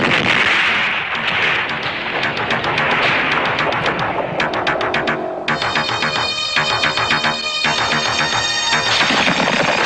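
Gunfire erupts on a command to fire at a sighted enemy target: many sharp, loud cracks in rapid, dense bursts, rattling on without pause and with no voices.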